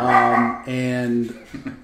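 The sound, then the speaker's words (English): A dog vocalizing in the background: two drawn-out, tonal, whine-like cries followed by a couple of short, sharp yips, fairly loud and with no talk over them. “That's a dog.”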